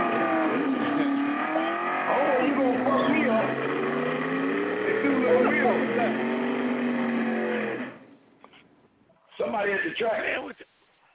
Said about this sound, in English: Somebody playing race car games, huh? Yeah, that's what that is. So they just wrecked.